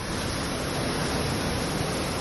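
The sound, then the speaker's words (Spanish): Heavy rain pours down during a storm in Herrera de los Navarros, in the Campo de Daroca area, forming a dense, loud, unbroken hiss that stays steady throughout. “Con esta fuerza caía ayer por la tarde ese agua en esta localidad que hoy ha amanecido con las calles llenas de barro.”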